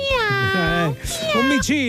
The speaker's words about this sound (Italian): Un gattino, bravi.